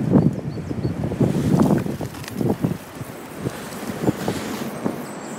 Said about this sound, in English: The wind's still raging